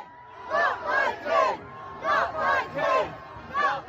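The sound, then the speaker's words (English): A small crowd of about two dozen protesters at a public event for the king shouts in unison. The rhythmic chant comes in repeated, evenly spaced bursts of raised voices that rise and fall together. “you will have seen people protesting Charles. They're noisy, they're very visible.”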